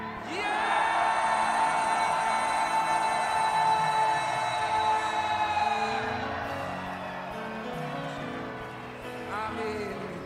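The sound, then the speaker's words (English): A church audience at a Lunar New Year conference gives a loud, sustained shout of victory lasting several seconds, which then trails off into looser, quieter cries. “And so before we split apart, let us give a shout of victory.”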